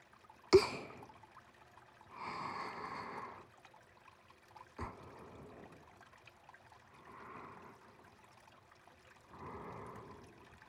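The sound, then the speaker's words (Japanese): Water flows in and out of uneven, wormhole-like grooves, making three soft gurgling swells. Two sharp clicks stand out from the otherwise faint, trickling wash. “この多種多様な凹凸たちに流れ込んでは出ていく水が奏でる音”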